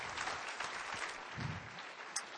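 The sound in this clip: Audience applause welcoming a speaker: a faint, steady patter of many hands clapping, with no voices over it.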